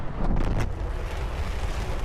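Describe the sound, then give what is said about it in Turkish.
Deep, steady rocket roar from a SpaceX Starship lifting off from Starbase in Texas despite an engine failure: a loud, broad rumble with a windy rush that holds without break throughout, with no voices. “Geri sayım yapıldı, roket uzaya fırlatıldı. Starship motor arızasına rağmen ilk kez yörüngeye ulaştı.”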